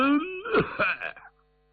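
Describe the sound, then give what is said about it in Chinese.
A voice imitating a man's single cough: a rising voiced hum followed by short rough throat-clearing bursts, about a second long and heard alone. “未曾说话还咳嗽一声”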